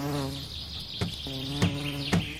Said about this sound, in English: Huh? What's that noise? Maybe that's my hive.